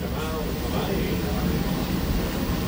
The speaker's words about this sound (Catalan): No, és l'aparell d'aire condicionat, es veu. Atenció, perquè això és el so de l'estudi nau espacial.